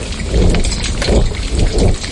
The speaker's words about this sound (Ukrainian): але потім зненацька пустився дощ. Ну, просто, відверто кажучи, така липнева злива, і вона докорінно змінила ситуацію.